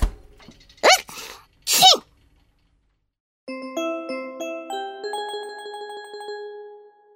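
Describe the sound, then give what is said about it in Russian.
A dog sneezes twice in short, sharp, breathy bursts. After a pause comes a gentle sequence of bright, tinkling chime tones stepping between pitches. “Может, ты от того и чихаешь, что в холодильник все время лазишь?”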